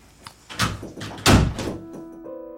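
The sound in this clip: A door or window being shut to keep hornets out: soft rustling movement leads into a single dull, solid thunk, after which the sound quickly settles to quiet.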